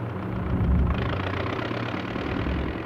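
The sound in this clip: A car engine pulling away in a radio drama: a loud, low, continuous rumble that swells a little early on and then holds steady, with no voices.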